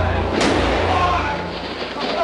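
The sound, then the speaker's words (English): A single gunshot cracks in the basement of Dallas Police Headquarters as Lee Oswald is shot, a sharp burst rising out of loud, dense crowd noise and shouting voices. “He's been shot. He's been shot. Lee Oswald has been shot. There's a man with a gun.”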